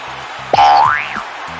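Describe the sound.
A springy boing sound effect standing in for a kicked ball striking the crossbar, a single loud twang whose pitch sweeps upward and then falls away over a low hum.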